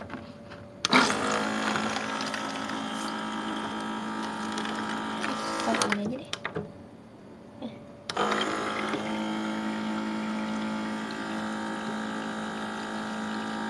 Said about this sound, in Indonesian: Bentar aku mau ngisi air putih.